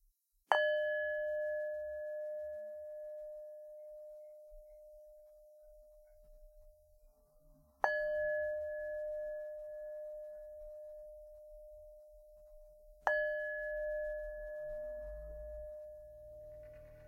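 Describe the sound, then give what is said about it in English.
A meditation bowl is struck three times to close a practice. Each strike rings out as a clear, sustained metallic tone with a higher overtone and slowly fades before the next strike. “As we finish the practice with the sound of the bowl.”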